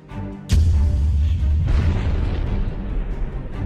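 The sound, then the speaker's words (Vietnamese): Explosions boom in a cave during a fight as the cave shakes. A sharp, heavy blast is followed by a long, deep rumbling roar that slowly eases. “Ba người bốn quỷ lao vào trận chiến, hang động rung chấn nổ lên đùng đùng.”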